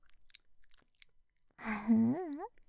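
Wet tongue licking sounds inside an ear come as soft, scattered clicks and smacks, followed by a brief voiced moan with a wavering pitch.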